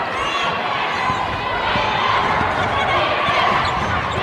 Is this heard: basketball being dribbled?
yes